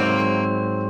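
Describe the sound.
A distorted electric guitar sustains a single dominant chord, fretted at the fifth and sixth frets on the E, D and G strings. The chord rings loud and steady for the whole second, heavy with effects and no voices.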